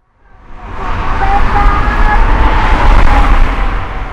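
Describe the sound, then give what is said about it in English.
A car drives along a highway loop through central Mexico City. Its road and engine noise swells in from silence into a loud, steady, broad rumble that holds to the end. “We're cruising down a highway that loops through the center of Mexico City.”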